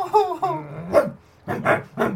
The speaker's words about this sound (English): Brutal stands, a bit unsteady on the feet, turns, looks at Bertie, growls,